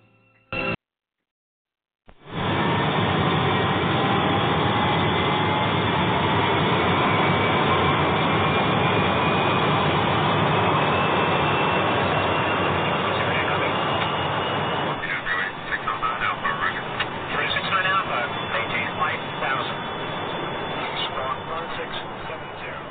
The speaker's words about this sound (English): I see we're number one for takeoff, so Captain, let's get flight 414 in the air.